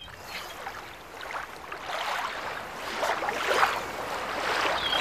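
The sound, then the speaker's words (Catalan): Beach ambience with waves: a continuous hiss of surf that swells and recedes in several soft surges, growing slightly louder toward the end. “On estem? És a la platja. És a la platja, molt bé.”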